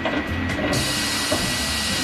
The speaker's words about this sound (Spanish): ¡Al abrir el horno!